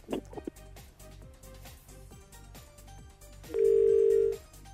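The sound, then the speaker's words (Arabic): After a phone call drops, a loud, steady telephone tone holds one pitch for about a second over rhythmic background music. “إذن انقطع الاتصال مع علي”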